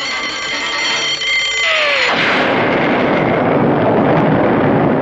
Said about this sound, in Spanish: La explosión se sintió en toda la isla.